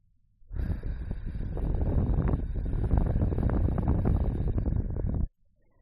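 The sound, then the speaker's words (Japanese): Gentle breath blown into a listener's ear as a finishing touch: one long, steady, breathy rush of air starts abruptly, holds at an even level for about five seconds, then cuts off, with no voice over it. “よし。じゃあ、仕上げにふーってするね。”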